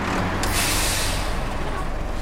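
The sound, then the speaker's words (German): Loud, steady air-brake hiss and low engine rumble as a truck pulls up and stops beside a petrol station shop, the broad hiss filling the whole moment without a break. “Neben uns hält ein LKW.”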